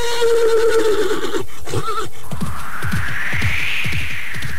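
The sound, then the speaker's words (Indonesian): A restless horse neighs loudly in a long, quavering whinny with a strong tremble. A shorter cry follows, then a run of low, rumbling thumps. “Pangrango, lihat, kuda itu pergi meninggalkan pondok ini.”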